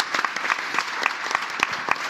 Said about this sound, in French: On peut applaudir ce gourou qui est Sylvain, l'anti-gourou qui est Sylvain Palais.